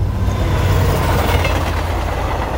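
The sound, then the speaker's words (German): A train on the Neisse valley railway crossing the river gives a steady, loud rolling rumble with a low hum underneath. No distinct wheel clacks and no voices can be made out. “Die Neiße-Talbahn. Sie überquert den Fluss zwischen Zitter und Görlitz viermal.”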